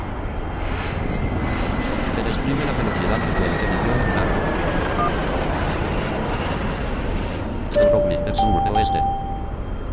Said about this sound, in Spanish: Y hemos ingresado el avión al hangar. Vamos a hacer el medio giro a velocidad 1 porque si no nos vamos a estrellar.